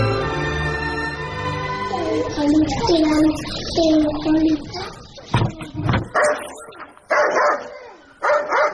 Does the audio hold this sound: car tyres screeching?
no